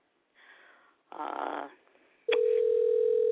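Telephone line tone on a call: a couple of soft bursts of noise come first, then a loud, steady, unbroken tone holds to the end.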